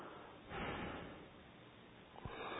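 A forceful exhale through the nose during an alternate-nostril breathing exercise: a faint, breathy rush early on, then a sharper, short burst near the end.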